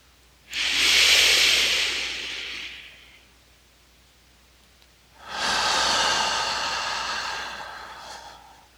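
Deep breathing during meditation: two long, loud, airy breaths separated by a quiet pause, the second one longer, with no talk.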